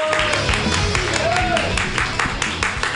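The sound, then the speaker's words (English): Comedy club audience clapping wildly between comedians, a dense, continuous patter of many hands that holds throughout, with a brief voice rising over it. “Yay, Tommy McGuire, keep clapping wildly. Yay. And then keep that clapping as happy and slappy as it can be for your next comedian, Justin Allen.”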